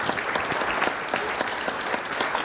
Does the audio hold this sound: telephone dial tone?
no